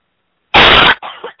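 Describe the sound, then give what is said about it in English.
A person coughs during a deliverance prayer session: one loud, harsh burst, followed by a few fainter, shorter rasping sounds. “Now I want you to take a deep breath and Diablo, cough all of those out.”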